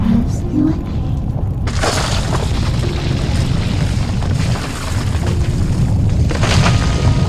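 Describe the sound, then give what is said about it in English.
An earthquake rumble fills a shaking room, with a deep, continuous roar laced with crackling and breaking bursts. It stays loud and steady for about seven seconds. “Suddenly the room around us began to shake in the grip of another earthquake.”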